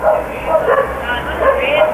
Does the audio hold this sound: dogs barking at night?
yes